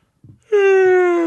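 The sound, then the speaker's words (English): A single long voiced yawn follows a short breathy inhale. It holds a steady, strongly toned pitch that sinks slightly as it fades. “That yawn came at the exact perfect time.”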